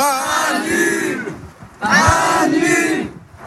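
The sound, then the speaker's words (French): A large crowd in front of a stadium in Metz sings a radio show's theme tune together, a loud mass of voices chanting in unison. The singing holds in two long phrases split by a short dip. “Allez, ensuite tous les gens, il y a beaucoup de monde devant le stade. Tout le monde ensemble va faire le générique.”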